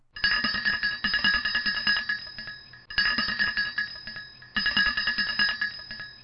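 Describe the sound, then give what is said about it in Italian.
A house doorbell rung without pause, heard as three long bursts of rapid, bright metallic ringing. Each burst is loud and steady, with only brief gaps between them and no voices. “Pinocchio, preso dalla disperazione e dalla fame, si attaccò al campanello di una casa e cominciò a suonare a distesa”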